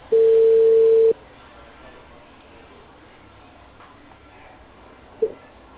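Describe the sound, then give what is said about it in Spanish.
A telephone tone after a call cuts off: a steady, moderately loud tone holds for about a second, then the line goes nearly silent before one short beep near the end. “Disculpe, se cortó la llamada.”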